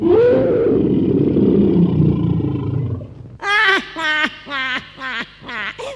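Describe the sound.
A voice imitates a lion's roar in a children's story, giving a long, rough, low growling roar of about three seconds. Several short, high cat meows follow it.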